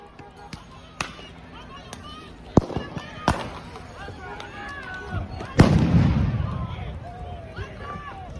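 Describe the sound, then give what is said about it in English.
Sharp bangs of police firing smoke canisters at protesters in Brooklyn Center, a Minneapolis suburb: a few scattered loud cracks, then a heavier blast that trails into a long rushing hiss, with voices in the background. “Police have fired smoke canisters and some kind of chemical agent at protesters in Brooklyn Center, a Minneapolis suburb”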